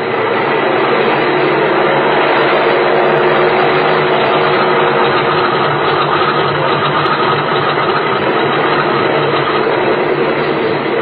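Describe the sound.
Steady engine roar from a passenger and mail aircraft warming up before take-off, loud and unbroken with a low rumbling drone and an even, continuous level throughout, no voices over it.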